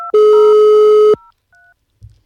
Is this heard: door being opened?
no